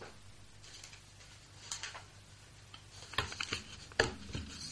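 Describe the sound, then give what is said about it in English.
Paper entries stirred inside a prize draw box give a faint, irregular rustle, with a few sharper clattering bursts near the end. “I'll grab the box and we'll see who comes out.”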